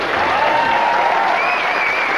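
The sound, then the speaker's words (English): Studio audience applause on a film-review television show, a thick, uniform rush of clapping that stays loud and unbroken from start to finish. “So instead, Maria from our studio audience is helping out. Give her a hand.”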